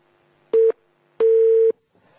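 Telephone busy tone after a dropped call: two loud, steady electronic beeps at one fixed pitch, the first short and the second noticeably longer, with silence between and no voices.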